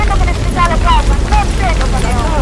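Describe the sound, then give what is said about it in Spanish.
A recreated wildfire scene from a film rumbles with a deep, continuous roar as a firefighting crew battles the blaze with scarce equipment. Men's raised voices shout over the heavy, dense din. “vamos a empezar con la escena de una película de Oliver Lasse que ustedes quizá hayan visto, que se llama O que arde. Y van a escuchar cómo una cuadrilla, es una recreación de cómo una cuadrilla de bomberos trata de luchar con medios escasos”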